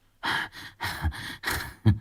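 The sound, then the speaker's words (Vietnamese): A man pants heavily through gritted teeth: four ragged, breathy gasps in quick succession, the last one short and sharp, with no speech. “Thằng Mặt Dỗ thở hổn hển nghiến răng.”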